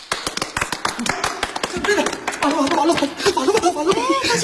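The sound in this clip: Scattered hand claps honoring a scholar's courage and devotion, crisp and separate at first, then thinning out as chatter and chuckling voices rise and take over the second half.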